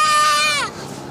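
A child vocalizing in a high, squealing tone: one sustained, buzzy cry that bends downward in pitch and breaks off into a softer, breathier sound.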